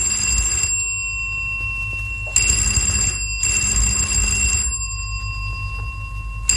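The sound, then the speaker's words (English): A telephone ringing in bright, metallic bursts; several rings separated by short pauses, loud and alone with no voices. “That is the phone that is ringing. Yes. Isn't anyone going to answer it?”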